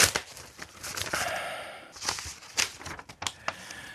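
A paper envelope being torn open, heard as a few crinkling, rustling bursts of tearing paper, fairly quiet and uneven, with short pauses between the rips.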